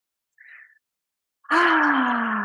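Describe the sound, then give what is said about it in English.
A deep breath during a guided relaxation moment: a brief faint inhale, then a loud, long voiced sigh on the exhale whose tone slides gradually lower as it fades out. “So I invite you to take a nice, big, deep breath.”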